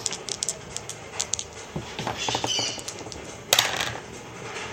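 A d100 die clatters across a table during a tabletop Dungeons & Dragons session, making many small, light clicks and rattles that end in a brighter, sharper burst.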